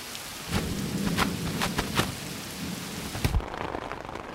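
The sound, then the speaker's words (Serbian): Heavy summer downpour with thunder: a dense, steady hiss of rain with scattered sharp spatters and a low rumbling underneath, a louder burst near the end, after which the rain sound thins. “Počelo je leto, a letnji dani umeju da iznenade velikim kišnim pljuskom. Velikim kišnim pljuskom.”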